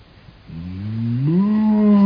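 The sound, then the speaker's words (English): A human voice imitates a cow's moo: one long, low, loud drawn-out call that starts after a brief quiet moment, rises slightly in pitch midway and is held to the end. “Instead of saying oink, oink, you say”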